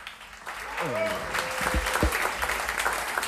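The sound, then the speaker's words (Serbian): An audience at a jazz concert applauds as the musicians are introduced: a voice is heard as the clapping builds after a quiet start, then settles into steady, moderately loud applause. “pa molim vas za jedan aplauz, pripremite dlanove.”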